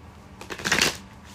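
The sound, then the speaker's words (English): A Rider-Waite tarot deck being shuffled: one short, crisp riffle of cards that swells and fades within about half a second, with quiet before and after. “I'm just going to use the standard Rider-Waite tarot deck.”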